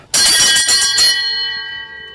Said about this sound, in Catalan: Aquesta campana el que fa és avisar els de darrere que poden jugar.